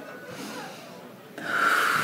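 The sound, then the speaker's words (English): Deep breathing from a person lying on their left side during a home procedure with a nozzle: a soft, airy breath that turns into a louder, rushing one near the end, with no talk. “I like to take a couple deep breaths during this process.”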